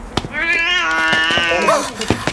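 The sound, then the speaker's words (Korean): A cat gives one long, clear, tonal meow that holds steady before tailing off, with a few faint clicks and thumps around it. “깜짝이야. 야, 고양이. 너 우리한테 오는 줄 알았더니 그냥 지나가냐?”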